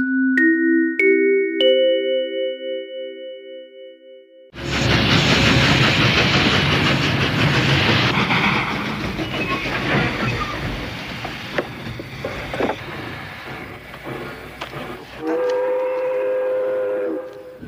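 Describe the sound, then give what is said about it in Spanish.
A train departs from a station. A three-note ascending chime rings first, then loud, broad rumbling and rattling of the train takes over, with a tonal whistle sounding near the end. “El tren con destino a Cabo Cañaveral va a efectuar su salida.”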